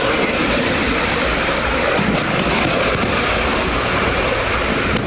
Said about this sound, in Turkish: Gökvatan'da aralarında Gökbey'in de bulunduğu savaş helikopterleri